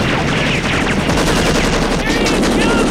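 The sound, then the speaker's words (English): Sustained machine-gun fire from a helicopter's gunner, loud and continuous, with a dense, crackling burst texture that fills the whole stretch. “The chopper's gunman returns fire, but bullets rain down on them.”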